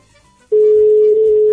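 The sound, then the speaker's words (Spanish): A telephone line rings on a call being placed, sounding as one steady, loud electronic tone that holds for about a second after a short quiet stretch. “¿Suena el teléfono?”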